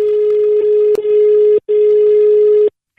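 A telephone rings in long, steady electronic tones. Two sustained rings are separated by short breaks, and a third begins at the very end. The sound is loud, unchanging in pitch, and heard alone with no talk.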